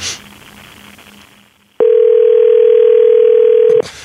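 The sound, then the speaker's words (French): A telephone dial tone sounds during dialing for a call, a loud, steady, unbroken single-pitched hum lasting about two seconds before it cuts off abruptly, preceded by faint low background noise. “OK, parce qu'on compose en ce moment.”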